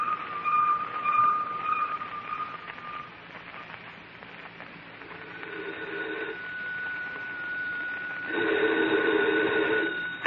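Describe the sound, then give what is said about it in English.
A wire photo machine transmitting a picture gives off a steady electronic whine and tonal hum that shift in pitch partway through and swell louder near the end, with no voices. “Oh, this wire photo machine. We stick a picture on it, and a minute later, some guy in Washington takes the same picture off his machine.”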